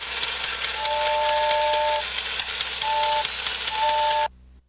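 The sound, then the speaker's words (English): A switched-on toy train runs with steady, rhythmic chuffing and a few sustained whistle-like tones, then cuts off abruptly just before the end. “He switches the toy train on and its wheels go round.”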